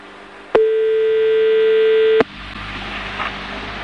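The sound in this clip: A telephone ringing on the line before someone answers: a single steady, loud tone holds an even pitch for nearly two seconds, then gives way to faint line hiss.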